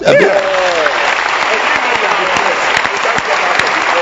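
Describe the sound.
An audience at a sermon breaks into loud, dense applause from many hands right after a brief spoken line, holding a steady, even roar of claps to the end.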